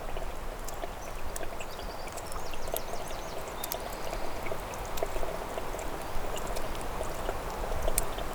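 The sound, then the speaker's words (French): Water droplets trickle and drip in a steady soft wash, with many small, sharp drips scattered throughout, faint and without voices. “Des gouttelettes d'eau.”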